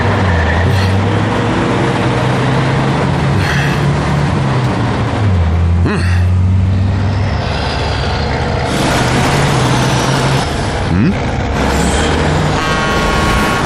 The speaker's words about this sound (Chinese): 怎么突然加速啊？